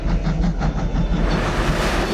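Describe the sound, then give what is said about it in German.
A night train travels along the line, giving a continuous low rumble with a faint, rhythmic clatter of wheels running underneath throughout. “U5. Mit dem Nachtzug.”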